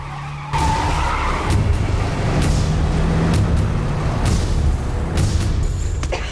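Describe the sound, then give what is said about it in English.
Tires skid as a car is spun around, a sustained, rough screeching roar that bursts in abruptly after a short quieter opening and holds steady at high loudness to the end. “Scott calmly uses his blood-soaked hand to take hold of the steering wheel and spin the car around.”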